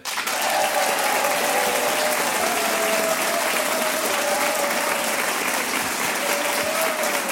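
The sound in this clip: Loud, dense applause from an audience in the Auvergne village of Pontgibaud, greeting contestants at a midday game show, steady and continuous throughout without a break.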